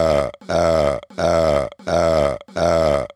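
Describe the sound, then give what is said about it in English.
Five deep, drawn-out burps come in a steady rhythm. Each is a rumbling voiced belch of about half a second, separated by brief gaps. “You just burping.”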